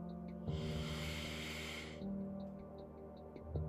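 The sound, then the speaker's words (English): One long, deep breath is drawn in, a soft airy rush lasting about a second and a half, set against a faint steady hum. “Take a deep breath”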